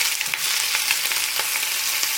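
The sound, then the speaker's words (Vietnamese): Batter and egg fry crisp in a pan during a group cooking lesson, giving a steady bright sizzle dotted with many small crackles and pops, with no talking over it. “các nhóm chia nhau nguyên liệu, đó là bột và trứng, để lần lượt cho vào chảo chiên giòn.”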